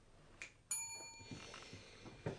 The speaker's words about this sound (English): Do you have to ring the bell?